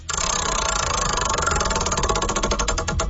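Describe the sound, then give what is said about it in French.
A prize wheel spins in a game, its pointer ticking in a loud, rapid rattle that holds steady, then slows into distinct, wider-spaced clicks near the end. “On va tourner la roue, ça, on le fait tous les jours.”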